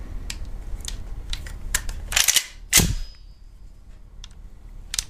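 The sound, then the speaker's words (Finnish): Sharp mechanical clicks from a gun as its action is cycled and the trigger pulled: a brief cluster of metallic clacks, then one crisp, loud snap, with a few faint ticks around them and no voices. “Jos se kerran kävi lataa syklin läpi, niin paina liipasimesta.”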